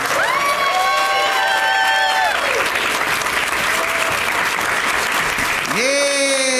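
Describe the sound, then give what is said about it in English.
Loud applause and cheering from an audience welcoming guests onto a stage show in San Antonio, a steady dense wash of clapping that runs throughout with shouts and whoops rising above it. “They're really making you applaud for a long time.”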